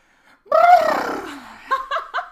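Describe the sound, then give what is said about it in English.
A lip flutter breath during yoga practice: one long exhale buzzing through loosely vibrating lips, loud at first and then fading, followed by a few short breathy puffs. “can you demonstrate the lips flutter?”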